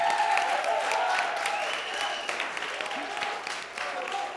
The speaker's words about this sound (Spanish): Una ovación. Muy bien.